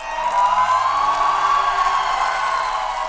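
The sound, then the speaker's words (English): Crowd cheering in Budapest for Hungary's new prime minister on the day he was sworn in: a loud, steady roar of many voices that holds at a constant level throughout. “crowds cheer for Hungary's new prime minister, Peter Magyar.”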